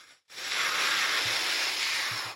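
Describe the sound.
Someone takes a hit from a crack pipe, heard as a steady, loud, broad hiss that starts after a brief quiet moment and holds for about two seconds, with a few faint low thumps near the end.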